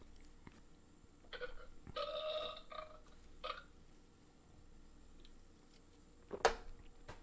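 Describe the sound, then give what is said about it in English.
A burp, faint and brief, rises out of low background hiss during a guitar-focused livestream. A few soft bursts come first, and the loudest, sharpest one lands near the end. No one talks. “Hope you didn't hear that burp.”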